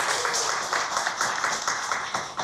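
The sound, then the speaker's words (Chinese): Applause welcoming a performer at a xiao flute concert: a dense spread of clapping that holds at a fairly steady level from start to finish. “让我们用最热烈的掌声欢迎山崎老师，欢迎您。”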